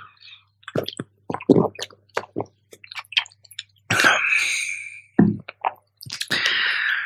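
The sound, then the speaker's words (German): Someone takes a quick drink, with soft wet sipping clicks and swallowing, then a few louder breathy gulps. No one talks. “Sekunde, ich muss mal kurz was trinken.”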